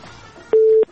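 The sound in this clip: A telephone line that is not connecting gives a single steady mid-pitched beep lasting about a third of a second, clear and fairly loud after a faint hiss.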